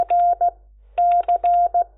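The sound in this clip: Morse code calling tones on HF radio: one steady, mid-pitched tone keyed into dashes and dots, a short group, a pause, then the letter C sent as dash, dot, dash, dot.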